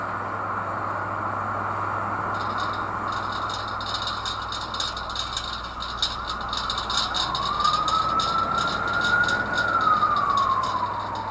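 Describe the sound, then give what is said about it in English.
New York City street ambiance with a low, steady hum and a fast rattling texture, joined in the second half by an emergency siren whose wail climbs and then falls away. “And those were the wonderful noises and ambiance of New York City that you can expect renting an apartment here. From the sirens to the heat radiator”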